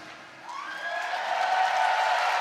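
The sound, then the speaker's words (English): Applause and cheering from the crowd at a Eurovision semi-final in Vienna, a broad roaring wash that swells steadily louder over a couple of seconds. “Well, as you can probably hear, the first semi-final is underway. Excuse the lip mic, but it's the only way to be heard over the applause.”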